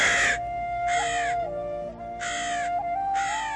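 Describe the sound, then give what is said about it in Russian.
A crow caws four times, harsh raspy calls spaced about a second apart, loud and clear over soft, steady musical tones. “Понял Ян Мэйцзи, о чем говорит ворон”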